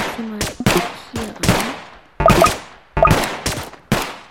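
A sniper tower fires in a tower defense video game against zombies, producing many sharp, loud gunshot cracks at irregular intervals, each decaying quickly before the next.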